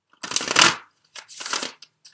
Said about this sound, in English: let me get one more card for you, Leo, from the Tarot of Sexual Magic